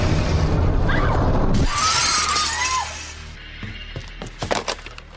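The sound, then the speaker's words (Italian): Car windows shatter in a loud, noisy crash of breaking glass, then fade into a few scattered, sharp tinkles of falling fragments. “I vetri dell'auto in frantumi, poi il suono cupo di 6 colpi di Magnum calibro 357 che uccidono”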